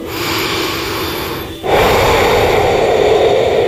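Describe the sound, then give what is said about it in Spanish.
A person breathing in and out: a long, airy, steady breath, a brief break, then a louder sustained breath, close and alone with no speech. “Pausa. Respira.”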